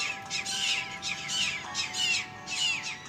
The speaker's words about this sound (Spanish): nunca he visto tantos pájaros chillar, weón. Están peleando, weón.